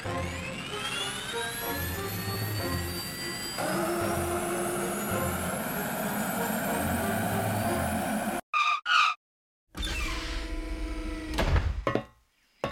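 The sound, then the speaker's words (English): A giant flying helicarrier's engines spin down as it lands: a loud, continuous jet-like roar with whining tones, which cuts off abruptly and gives way to a few short bursts of engine noise. “Spin down! Deploy the landing pods! What? Let's land this thing. All right, helicarrier landing.”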